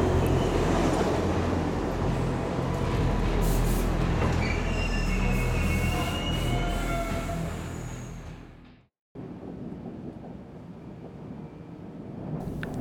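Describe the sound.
A metro train arrives at the station with a loud, continuous rumble and high metallic wheel squeals. The noise drops out abruptly for a moment near the end, then a quieter rumble resumes.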